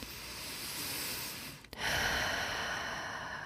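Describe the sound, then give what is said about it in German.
Slow, deep breathing in and out during a guided relaxation exercise: a steady, soft breathy rush that briefly breaks off midway, then returns slightly louder and sustained, with no talking. “Und dann atme gerne zwei, dreimal richtig tief ein und tief aus.”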